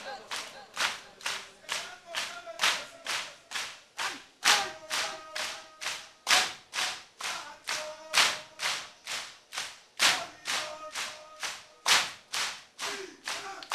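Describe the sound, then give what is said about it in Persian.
Mourners beating their chests at a mourning ceremony for Hussain: many evenly spaced, thumping slaps in a brisk, steady rhythm of about two per second, continuing throughout. “فقط سینه بزن فقط سینه بزن”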